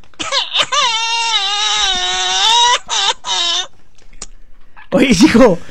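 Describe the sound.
A baby crying loudly: one long, sustained, piercing wail, then two shorter cries after brief breaths, and a final wavering cry after a pause.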